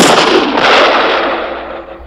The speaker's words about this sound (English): I want to shoot this bullet right into the ground. For our friendship and for the podcast. Best friends. Best friends. One, two, three.